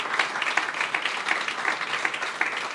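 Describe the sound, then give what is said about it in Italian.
Applause from the audience at an Italian political party gathering: dense, sustained clapping from many hands at a steady level throughout, with no distinct voices. “E quindi un applauso intanto a Giorgia Meloni”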